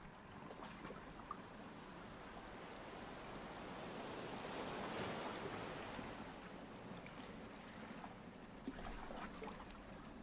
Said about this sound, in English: The fizz from each soft wave soothes your mind down further.